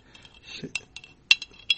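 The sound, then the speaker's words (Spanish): Sugar being worked against the walls of a glass as it takes up moisture: a few sharp, bright clinks with soft scraping between them, fairly quiet. “Va tomando la humedad toda el azúcar. Uh-huh. Y vamos trabajándolo en los bordes. En las paredes del vaso.”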